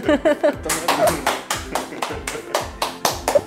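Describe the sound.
Hands clap in a quick, steady rhythm, giving many sharp, bright claps one after another. Brief voices break in near the start and again a few times in between.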